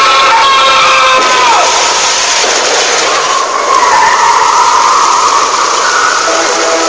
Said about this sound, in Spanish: venía un auto a toda velocidad, el cual lo impactó matándolo al instante